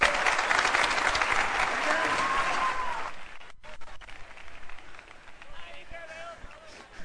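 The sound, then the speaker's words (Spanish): Applause for a band at a carnival show: loud, dense clapping for about three seconds, then thinning to scattered claps and crowd noise with some voices. “os pido un fuerte aplauso para mi grupo”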